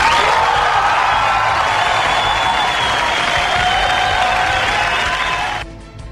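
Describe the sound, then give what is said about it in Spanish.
Loud crowd applause on a radio show, a thick, sustained roar of many hands clapping with some cheering mixed in, holding steady before cutting off abruptly near the end. “Así que este aplauso es de agradecimiento a todos ustedes.”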